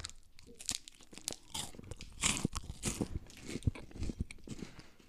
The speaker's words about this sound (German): hier liegen äh, Knobbersriegel, Nussriegel von Stork. Mmh, lecker, lecker